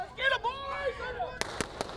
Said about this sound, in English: the bullets are blank, of course, and the whole shootout is a game.